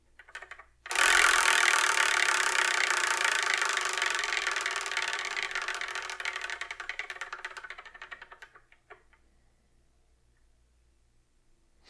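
A selection wheel spins with a loud, dense ticking rattle that starts abruptly. The clicks thin out and slow, spreading into separate ticks before they stop.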